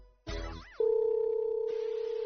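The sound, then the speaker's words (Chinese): A telephone dial tone sounds while a call is being placed: a short burst of clattering noise gives way to one steady, unbroken tone that holds to the end. “跟儿子打个电话，他划一脚过来应该蛮方便。”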